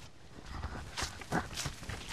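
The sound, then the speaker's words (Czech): Footsteps crossing a parched, dry meadow whose ground is hard like clay, several soft crunching steps in an irregular rhythm, faint and alone. “Tak teď jdeme po úplně vyprahlý louce. Je to spíš, jako by jsme šli po hlíně.”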